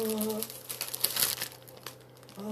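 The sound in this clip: A plastic bag is handled and crinkled, giving dense crackly rustling for a second or so, bracketed by brief bits of speech at the start and end.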